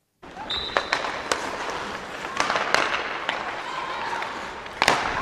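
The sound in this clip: A women's ice hockey team practises passes in the Bodensee-Arena in Kreuzlingen, with many sharp, irregular clacks of puck against stick over a steady hiss of arena ambience.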